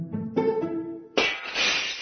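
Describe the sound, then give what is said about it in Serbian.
A drinking glass breaking: a few short tonal notes, then a sudden bright shattering crash whose jangling, scattering fragments ring on to the end. “Šta je to? Šta se dešava? Razbila sam čašu.”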